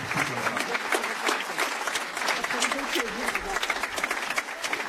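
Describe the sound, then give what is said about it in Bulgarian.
Concert applause for a small jazz combo from a national music academy's pop and jazz department, many hands clapping in a continuous, moderately loud crackle. “Аплаузи за всички вас, които направихте това нещо възможно.”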